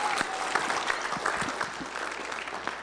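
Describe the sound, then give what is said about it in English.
An audience claps in welcome at a gathering, a steady patter of many hands at a fairly quiet level for a few seconds. “So we welcome you and we love you. Give them a hand right now.”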